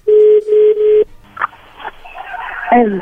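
A telephone call ringing through: a steady tone repeated in three quick pulses, then giving way to irregular line noises as the call connects.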